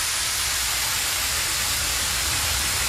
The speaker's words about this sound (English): They should just park these up outside Wembley Stadium later, because everyone's going to be absolutely in need of it. The big fire hose. This sounds like a big wee.